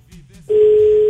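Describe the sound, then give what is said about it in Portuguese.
A telephone call being placed to an access controller: after a short faint stretch with a few soft muffled sounds, a loud, steady single-pitched line tone starts and holds to the end. “Ligando pra controladora de acesso de ontem. Vamos ver se ela tá.”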